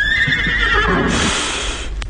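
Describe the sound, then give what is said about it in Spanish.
A horse neighs in a corral, a single loud, drawn-out whinny that wavers and then fades over about two seconds. “¿De quién es ese caballo que en el corral relinchó?”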